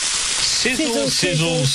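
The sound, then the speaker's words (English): Sausages sizzling: a steady, loud, hissing crackle throughout, with a voice speaking briefly over it. “Sizzle, sizzle, sizzle, sizzle. Pop, crackle, sizzle, sizzle. Our Fraser lines are much more than sausage sizzles.”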